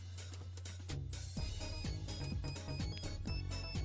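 A phone message alert tone rings out as a bright electronic jingle of repeated short pitched notes over a sustained low tone. It is steady and fairly loud, with no speech.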